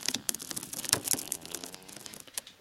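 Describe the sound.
A decomposed, sticky old film reel is pulled apart, giving a dry crackling and tearing with many small rapid pops and crinkles, all without any talk.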